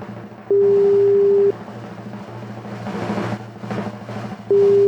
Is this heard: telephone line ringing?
yes